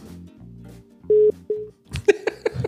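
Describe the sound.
Telephone signal of an incoming call: a steady electronic beep tone followed by a shorter one, then a burst of busier clattering sound.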